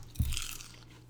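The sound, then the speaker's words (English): Crunching on barbecue-flavoured Bugles corn snacks: a single sharp, crisp bite that fades into a short, softer crackle. “I'm doing it. Um, it tastes like barbecue bugles. This is not buffalo-y.”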